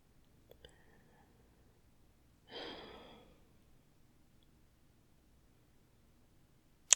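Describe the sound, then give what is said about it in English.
A single soft, airy breath lasting under a second rises out of near silence and fades, with nothing else but faint background hiss. “Can listen to you breathe all night. It's calming.”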